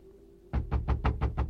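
Knocking on a door: seven quick, evenly spaced, heavy raps begin after a half-second of faint background hum. The blows are loud and low, in a steady rhythm.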